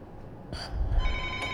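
A telephone rings on a call-in line, giving short bright ringing bursts over a low steady hum.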